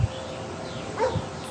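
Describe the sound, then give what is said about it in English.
A dog barks in the distance: a single faint bark rises briefly over a steady background hiss. “You can hear birds and a dog barking, but this one is more in the distance.”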